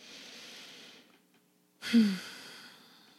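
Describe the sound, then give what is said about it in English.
A deep breath during a guided breathing exercise: a long, airy inhale, a short pause, then a louder, sighing exhale, soft and unhurried with no talking over it. “Let's take some deep breaths.”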